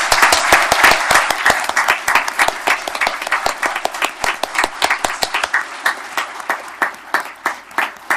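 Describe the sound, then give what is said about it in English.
A standing audience applauds to welcome visiting students to Portland, with loud, sustained clapping that thins toward the end into distinct, rhythmic claps. “So would you please stand, students, and let's welcome them to Portland. Welcome to Portland.”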